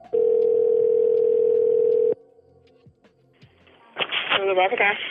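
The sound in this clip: Steady telephone dial tone as a call to Comcast starts, held loud for about two seconds, then cut off, followed by quiet clicks and faint tones before a voice begins talking.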